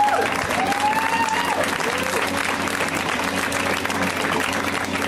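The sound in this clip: An audience applauding a comedian as he is brought on, a dense, steady wash of loud clapping that holds at an even level throughout.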